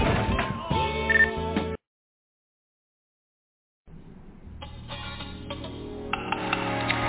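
A telephone is handled and dialed in a garage, with thin, narrow-band clicks, taps and tones. A burst of handling noise is followed by a stretch of silence, then a steady run of fiddling and dialing sounds.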